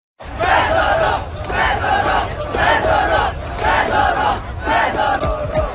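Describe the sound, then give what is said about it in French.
Loud chanting from a large crowd of protesters in city streets. About five rhythmic shouted phrases repeat in unison at a steady pace, without pause. “Des milliers de manifestants, vous les entendez, sont descendus dans les rues de plusieurs grandes villes du pays pour protester contre son limogeage.”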